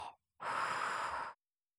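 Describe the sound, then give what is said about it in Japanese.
Soft breathing during a gently guided in-and-out breathing exercise: a brief breath sound, then one steady, airy breath lasting about a second, quiet and alone. “吸って、吐いて。”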